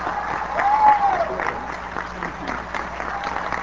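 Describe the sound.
Commencement audience applauds as President Bill Clinton is welcomed. The clapping is a thick, continuous patter that swells slightly near the start, then settles into a steady level.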